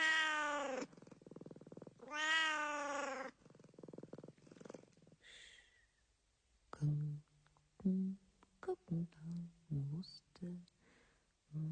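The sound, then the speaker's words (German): A cat meows twice in long, drawn-out harmonic calls, then after a pause a person speaks softly in short phrases. “meine liebe Katze, da bist du ja.”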